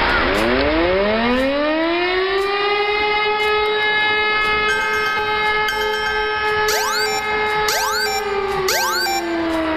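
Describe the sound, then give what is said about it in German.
A civil defense warning siren sounds during a nationwide alert test in the Landau-Neustadt area. The loud, wailing harmonic tone rises in pitch at the start and then holds steady, with brief rising whoops near the end. “Schon erschrocken. So oder so ähnlich klingt es morgen auch bei uns. Es ist nämlich mal wieder bundesweiter Warntag und in Landau-Neustadt und der Umgebung werden die Sirenen und Warnsysteme getestet.”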